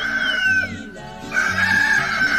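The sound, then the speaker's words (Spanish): A rooster crows in the morning, two long, loud, harmonic calls separated by a brief dip, with no talk over them. “Al que madruga, Dios le ayuda, ya cantó el gallo, por Dios bendito.”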